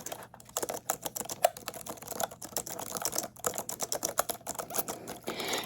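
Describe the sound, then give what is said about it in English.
Fingers type on a computer keyboard, producing many crisp, quiet clicks in irregular rapid bursts with short pauses between them, with no talking. “And the last one you can type in, okay? You type it in. You type it in.”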